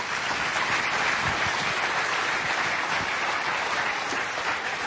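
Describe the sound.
An audience applauds to welcome a speaker on stage, a dense, steady wash of many hands clapping that holds at an even, loud level throughout.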